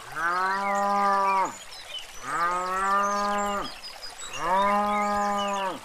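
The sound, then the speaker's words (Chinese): A human voice imitates a calf mooing: three long, loud, rich moos, each about a second and a half, holding a steady pitch before sagging downward at the end, separated by short pauses. “这次啊，他模仿的是小牛的叫声。”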